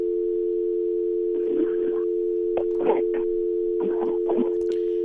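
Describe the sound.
A telephone dial tone on a call-in line after the caller disconnected: one steady, unbroken tone running throughout, with a voice briefly talking over it in a few short bursts.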